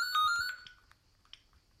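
A telephone rings with a bright electronic ringtone: a short burst of repeating tonal notes that cuts off in under a second, leaving near silence with faint rustling.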